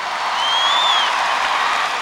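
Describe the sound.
Audience applause at a song festival concert, given to the orchestra, a steady, loud wash of many clapping hands with a brief high whistle gliding up and back down over it.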